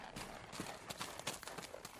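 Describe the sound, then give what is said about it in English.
Faint hoofbeats of a saddled horse galloping down a trail, a quick, uneven clatter of hooves that keeps up throughout. “placed a saddle on my horse, and started as fast as possible down the trail taken by Powell.”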